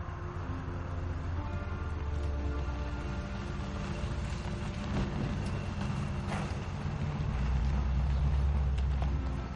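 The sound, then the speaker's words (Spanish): Steady low engine rumble of a car driving and pulling up to park in front of a neighbour's house, a continuous drone that swells somewhat toward the end. “conduce el coche hasta aparcarlo frente a la casa de su vecino.”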